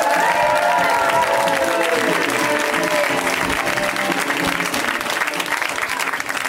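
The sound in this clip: Audience applause and cheering as a comedian is welcomed onto the stage at a live comedy show. The clapping is loud and dense and holds steady for the whole stretch, with crowd voices mixed in near the start.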